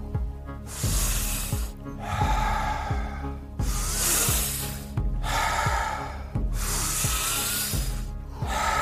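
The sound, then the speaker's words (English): Deep, forceful circular breathing, each long hissing inhale flowing straight into a strong exhale in a steady repeating cycle, loud and rhythmic over a soft, regular low pulse. “Nice, deep, circular breaths. Five more.”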